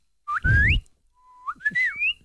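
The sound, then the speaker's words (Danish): A person whistles while trying to shape the tongue differently: a short rising whistled glide, a pause, then a longer run of wavering, sliding notes, with some breathy low noise beneath. “Altså, prøv at flytte din tunge, og så fløjt.”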